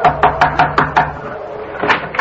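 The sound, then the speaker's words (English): Rapping on a house door, a quick run of firm knocks, then a pause and one final knock. “I crossed the driveway, rapped on the door.”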